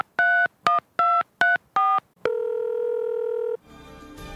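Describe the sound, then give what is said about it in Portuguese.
Touch-tone telephone dialing a call: five crisp dual-tone beeps in quick succession, then one long steady tone and a burst of noisy line hiss. “Para começar, vamos ligar para a Aline.”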